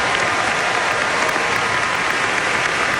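Dense applause fills an oncology conference hall after drug trial results showing longer survival for pancreatic cancer patients. The clapping is loud and steady throughout, with a faint murmur of the crowd beneath it.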